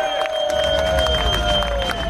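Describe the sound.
A crowd in Heroes Square, Budapest cheers at a cycling team presentation for the Alpecin team, a steady loud roar of many voices laced with whistle-like tones and scattered shouts.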